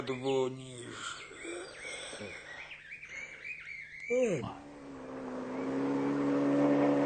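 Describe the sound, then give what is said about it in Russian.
A motorboat engine hum grows steadily louder and fuller during the latter half, a low droning tone that follows an earlier stretch of voice-like sounds. “Гул мотора узник раптовно и дуже близко, быцем за спиной, и Олег имкливо озернулся. Ветер согнул лазняки, и у гэтым светлым прагале ён убачыў човен,”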